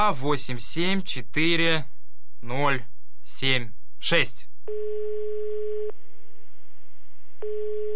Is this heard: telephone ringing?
yes